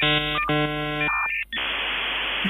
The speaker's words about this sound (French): c'est un son de modem 56K